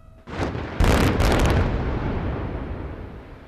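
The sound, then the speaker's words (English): A controlled detonation in a new, modern diamond mine in eastern Sierra Leone: a blast opens with a sharp rise, then a heavier booming burst follows, leaving a loud, broad rumble that slowly fades away. “This wasn't a bomb, but a controlled detonation in a new, modern diamond mine in the east of the country.”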